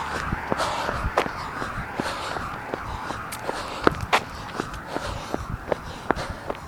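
Footsteps of a person running on a trail, a steady series of many quick, soft thuds at an even pace, with no voices.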